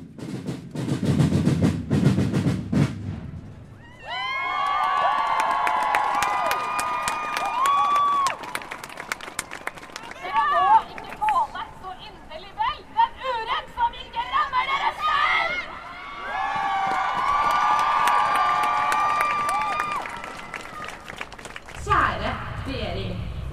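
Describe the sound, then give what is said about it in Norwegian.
Demonstration crowd roaring, cheering and clapping in response to speeches, rising in two long loud swells of shouting voices and applause. “Det brøles og klappes etter ethvert poeng en taler kommer.”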